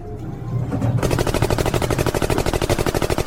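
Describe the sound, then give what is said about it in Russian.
Heavy automatic gunfire from bear-headed robots: a loud, rapid, evenly spaced stream of many shots that bursts in after a second of low rumble and keeps going without pause. “Как только двери кабины стали открываться, медвежьеголовые роботы открыли шквальный огонь.”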